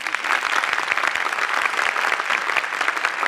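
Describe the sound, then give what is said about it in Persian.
Audience applause for a guest, a loud, dense and even rattle of many hands clapping continuously for about three seconds, with no voices above it. “اگه میشه براش دست بزن”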